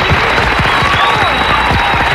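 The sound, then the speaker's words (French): Audience applause on a French radio show, dense and loud, a steady wash of many hands clapping without pause from start to finish. “Donc là je vais dire on va t'applaudir, bravo. D'ailleurs on va y mettre plus le paquet.”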